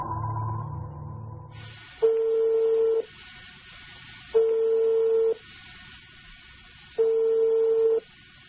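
A phone line rings while a call is placed to reach a guest: three steady, one-second tone bursts with long, even gaps between them, over a faint line hum.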